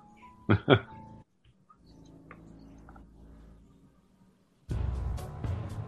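Two short, sharp dog barks in quick succession from a dog being fed, followed by a quiet stretch and then a burst of louder noise.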